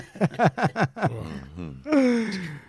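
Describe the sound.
Choking and gasping from a person who inhaled peanut particles while eating and talking: a rapid run of strained, voiced gasping bursts, then a drawn-out groaning wheeze that rises into a louder strangled cry.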